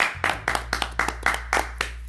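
Hand clapping to welcome a guest arriving on a show: a steady, evenly spaced series of sharp claps, about four per second, over a low constant hum.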